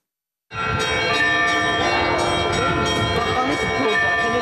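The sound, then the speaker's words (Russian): Festive church bells ring at the Holy Trinity Cathedral in Jerusalem. After a brief silence they burst in together as a loud, dense, continuous clangor of overlapping bell tones. “Праздничный колокольный звон собирает прихожан и паломников в Свято-Троицкий собор Иерусалима.”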